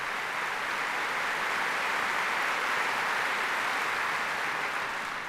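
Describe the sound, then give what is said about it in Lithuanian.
Applause for a symphony chorus after a performance: a steady, dense wash of clapping that holds at an even, loud level throughout. “Irgi plojimai jiems.”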